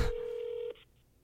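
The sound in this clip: A telephone call tone sounds as an outgoing call waits to be answered, a single steady mid-pitched beep held for under a second before cutting off, followed by a faint short blip, then quiet.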